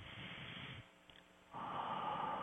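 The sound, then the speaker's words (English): A deep breath taken during a guided meditation: a long, airy inhale, a short quiet pause, then a fuller, steady exhale, all faint and breathy. “So if you're ready, let's take a deep breath together”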